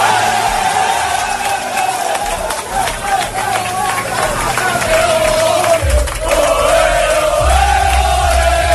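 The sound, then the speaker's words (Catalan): A football squad, its coaching staff and the club president celebrate in the dressing room at the Cornellà-El Prat stadium. Many voices chant, shout and cheer loudly and continuously throughout. “Aquesta és la celebració de la plantilla, el cos tècnic i el mateix president Joan Laporta al vestidor de la Cornellà al Prat”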